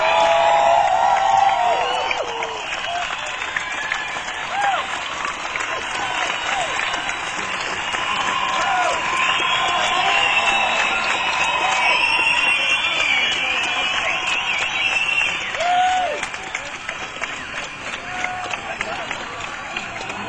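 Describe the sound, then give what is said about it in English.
An audience applauds and cheers to welcome a performer on stage, with sustained clapping, whoops and crowd noise that stays loud for about twenty seconds and eases slightly toward the close. “So I think we want to give him a huge hand, and we want to welcome Gordon Lightfoot. Let's hear it.”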